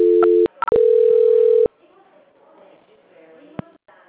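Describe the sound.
A telephone line tone sounds during a call transfer, chopped by clicks into a short burst and then a steady tone lasting about a second. It cuts off, and faint voices follow on the line.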